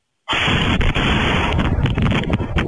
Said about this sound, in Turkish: Gece vakti husumetli olduğu kişinin evine geldi, kapının önüne patlayıcı madde bırakıp etrafa ateş açarak kaçtı. Saniyeler sonra ise mahalle patlama sesiyle ayağa kalktı.